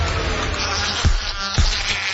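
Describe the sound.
A mosquito buzzes in a loud, continuous whining drone, interrupted by two brief low thumps partway through.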